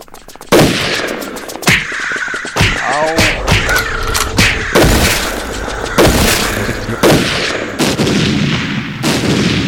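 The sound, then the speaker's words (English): Gunfire in a video game: many sharp, loud shots crack out in irregular bursts, repeating steadily throughout. “As you can see, every time I shoot, they're dying.”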